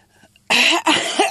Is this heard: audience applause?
no